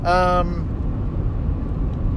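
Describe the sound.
A steady, low rumble of road noise from a car on a road trip, continuous and even throughout, with a voice talking briefly at the start.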